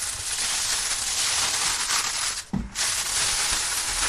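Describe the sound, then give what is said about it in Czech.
Aluminium foil crinkling and rustling as hermelín cheese is wrapped into a tight parcel for grilling; dense, continuous crackly noise with one brief lull partway through, no voices. “A pak je důležité z toho alobalu udělat takový velmi pevný balíček, aby nám někde ten hermen neodtékal. A pak se to bude pomalu grilovat. Tak já už budu balit.”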